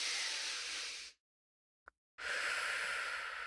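Someone takes a breath during a guided tapping exercise, heard as two long, soft, breathy hisses separated by a quiet pause with one tiny click.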